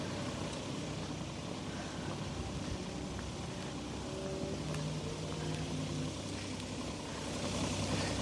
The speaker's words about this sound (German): So, der Bagger fährt schon mal weg.